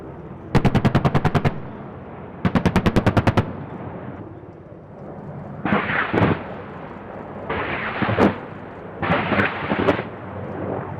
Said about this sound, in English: Now the circling Apaches get their turn, first with their guns, then their rockets.